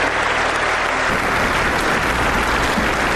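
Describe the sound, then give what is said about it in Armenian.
Standing ovation from European lawmakers after Armenian Prime Minister Pashinyan's roughly 40-minute speech: loud, continuous applause with a dense, even wash of clapping throughout. “Փաշինյանի շուրջ 40 րոպեանոց ելույթին եվրոպացի օրենսդիրների հոտնկայս ծափահարությունները հաջորդեցին։”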